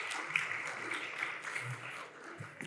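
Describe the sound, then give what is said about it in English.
Audience applause welcoming guests' family members who have stood up: a steady, dense clatter of clapping hands that holds at an even level from start to finish. “If you're family members, give them a hand. That's awesome. Welcome.”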